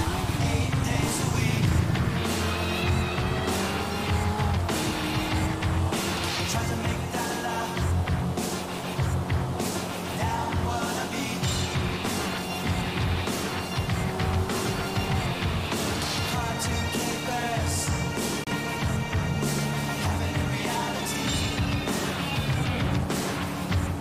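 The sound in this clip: Engine drone of a Corvette C8 driven in a video game, a steady, moderately quiet hum with shifting tonal layers that runs unbroken throughout.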